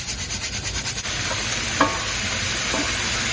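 Ground turkey frying in a pan with salt and pepper, being stirred: a continuous loud sizzle with rhythmic scraping strokes at first, then a steady hiss broken by a couple of brief utensil scrapes.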